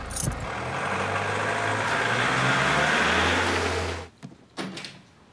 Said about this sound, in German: Fasten Seatbelts. Seatbelts fasten. Ready for takeoff? Maschinen starten.